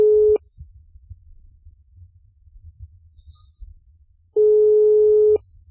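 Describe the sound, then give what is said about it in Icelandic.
Telephone ringback tone on a radio call-in line: two steady, mid-pitched electronic tone pulses, one at the start and one after a long gap of low rumbling noise. “síminn farinn að hringja”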